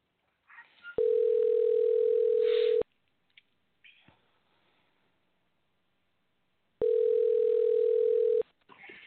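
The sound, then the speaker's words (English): A telephone dial tone sounds during the dialing of a call, a steady, mid-pitched hum heard in two separate stretches of about two seconds each, with quiet clicks and faint handling noises in the gap between them. “Let's give Kevin a call. He's standing by. Let's get him on the line. We'll play some of his music after the interview is over. Bear with me a second while I dial up his number. Let me get him connected here.”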